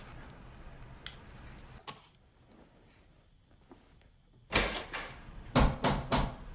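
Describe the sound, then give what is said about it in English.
Knocking at a front door at night: a couple of faint, isolated taps, then a louder cluster of heavy knocks toward the end. “Later, a knocking wakes him.”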